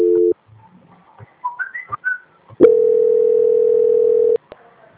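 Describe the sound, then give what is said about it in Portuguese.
A telephone line tone during a call transfer: a brief tone at the start, then a few higher warbling chirps, then one long, steady, flat tone held for nearly two seconds before it cuts off. “Não desliga que eu vou transferir para a senhora.”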